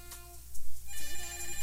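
A telephone rings with an electronic melodic ringtone, unanswered: bright, repeated, warbling tones that shift pitch partway through, heard alone with no voices.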